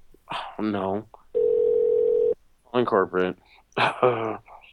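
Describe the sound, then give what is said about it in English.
A steady telephone dial tone sounds for about a second, flat and even in pitch, with people talking before and after it. “I'm going to get the manager of the Disney store on the phone”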